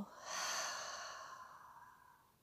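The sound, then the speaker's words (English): One deep exhale through an open mouth, a soft breathy sigh during a guided breathing exercise. It starts quietly, swells after a moment, then fades slowly. Faint, with no speech. “Invite another deep inhale into the body. Open the mouth, exhale,”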